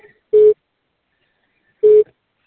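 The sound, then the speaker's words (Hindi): Telephone busy signal: two steady, low-pitched beeps of equal length, about one and a half seconds apart, sounding alone on a quiet line. “आपके द्वारा dial किया गया number अभी व्यस्त है या इस समय उपलब्ध नहीं है”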